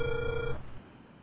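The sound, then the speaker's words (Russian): A telephone tone sounds while a call is being dialed: one steady electronic tone lasting about half a second, which then gives way to faint line hiss. “Алло, продолжая дозвон, не отключайтесь.”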